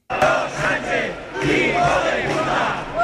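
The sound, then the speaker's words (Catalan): A protest crowd chants and shouts at a rally in Catalonia backing Ceuta and denouncing the Sánchez government: loud massed voices rise and fall in swelling bursts for about three seconds. “Protestes a Girona, Lleida, Barcelona, en una plaça Sant Jaume blindada pels Mossos per dividir dues concentracions contràries”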